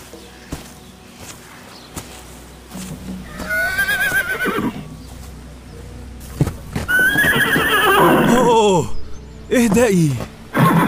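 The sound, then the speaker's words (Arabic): A mare tied up on an island shore near the water neighs loudly several times in long, quavering whinnies. Hooves clop between the calls, and voices can be heard. “الحمد لله، هذا صوت فرس، لست وحيدا على هذه الجزيرة.”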